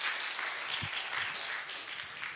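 Audience applause after a presentation: dense, steady clapping that fills the whole stretch at an even level, with no voices over it.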